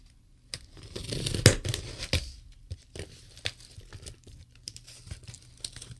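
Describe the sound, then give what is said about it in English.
A package is torn open by hand, with crinkling wrapping and several sharp ripping bursts, followed by scattered lighter rustles and clicks. The sounds are fairly faint and irregular. “Opening packages on the radio.”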